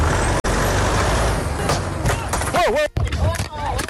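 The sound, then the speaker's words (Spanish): A car stops abruptly in the street amid loud, steady engine and road rumble. Voices call out near the end. “Las imágenes muestran un coche que se detiene bruscamente en el lugar.”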